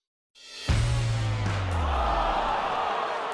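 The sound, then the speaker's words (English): Artificial crowd noise recorded at Heinz Field, a groaning roar of disappointed stadium fans that starts softly, then surges suddenly into a low, sustained swell of many voices. “Legions of disappointed fans. And there's fake crowd noise. I'm so used to it now after 6 months of sports. It's great. We recorded that at Heinz Field. It's the actual, really authentic fake crowd noise.”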